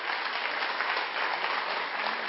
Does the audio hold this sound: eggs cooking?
no